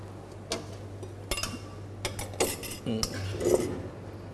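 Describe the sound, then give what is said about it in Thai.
Metal utensils toss and mix stir-fried food with green onions in a pan, giving irregular clinks, taps and scrapes of moderate loudness over a low steady hum. “เดี๋ยวเราจะมาใส่ต้นหอมกันเป็นขั้นตอนสุดท้ายนะครับแล้วก็คลุกเคล้าให้เข้ากันครับ”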